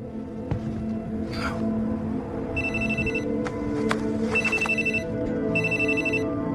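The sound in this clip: A telephone rings with an incoming call: three repeated bursts of a high electronic ringtone over a steady low rumble.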